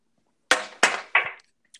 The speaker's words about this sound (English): You're going to hear the clank again because we're about to take another shot.